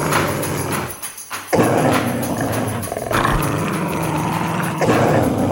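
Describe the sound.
Dogs growl and snarl in a tense ritual face-off between rival packs fighting over a garbage bag in an animated film. A steady, rumbling mix of canine noise runs throughout, with a brief lull just before the midpoint.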